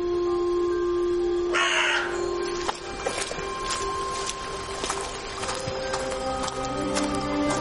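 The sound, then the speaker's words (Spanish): Two crows perched in a tree in a forest give many short, harsh caws in an irregular series over a steady background. “Dos cuervos se posan sobre un árbol cercano.”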